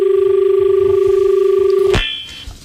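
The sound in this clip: A telephone rings for an incoming caller: a steady, rapidly warbling two-tone ring held for about two seconds, then cut off abruptly by a click.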